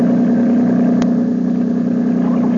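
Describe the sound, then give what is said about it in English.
A big motorboat's engine gives a loud, steady droning rumble with a strong low hum that continues without a break throughout. “There's a big motorboat coming this way. She'll miss us. Watch out for a wash”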